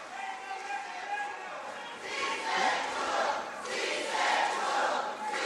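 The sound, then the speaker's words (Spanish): Crowd reaction as Keiko Fujimori is accredited as president-elect: a mass of voices cheering and chanting, swelling in louder waves over continuous crowd noise. “Continúan las reacciones del público asistente.”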